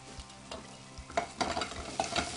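Ingredients for a southwestern-style bolognese are stirred as they fry in a pan, with irregular scrapes and knocks over a steady low sizzle, growing a little busier toward the end.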